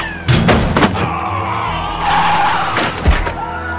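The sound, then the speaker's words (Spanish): A truck reverses at full speed and rams a barricade, with a steady engine roar broken by a few heavy thuds and crashing impacts, the last hard slam near the end. “El camión retrocede enfurecido entre los soldados disparando. Vuelan cuerpos, cascos, armas y piedras cuando el bólido embiste la barricada.”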